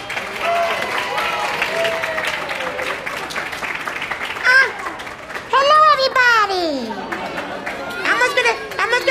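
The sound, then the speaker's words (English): Audience applause welcoming special guest Elmo, clapping mixed with lively children's voices and chatter, rising in bursts. “So put your hands together, everyone, and to welcome our special guest, Elmo.”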